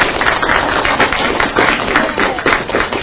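Loud, steady clapping from an audience applauding a college graduate continues without a break throughout.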